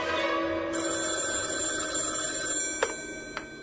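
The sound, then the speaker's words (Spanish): A telephone rings with a steady, bright ringing tone that carries through the whole moment, followed by two short clicks near the end. “De la nada, una noche, recibí la llamada de Helenita.”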